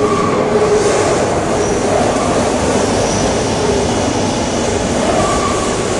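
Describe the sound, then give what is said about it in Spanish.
A subway train pulls into a metro station, a loud, continuous rumble and rolling clatter of wheels on rails that holds steady throughout, with faint metallic tonal whines surfacing now and then. “llega el metro”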